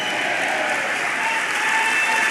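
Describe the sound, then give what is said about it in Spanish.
Church audience clapping hands in praise during a worship service, a dense, steady wash of many hands applauding together at even loudness throughout, with no clear voices standing out. “Vamos, dele palmas, dele palmas al Señor. Dele palmas al Señor, dele palmas al Señor.”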